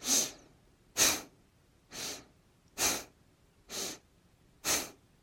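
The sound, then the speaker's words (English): Slow, airy breathing during a guided relaxation exercise: six soft breaths at an even, unhurried pace, each rising and fading, with quiet gaps between. “Down, up, down. Breathe in, out.”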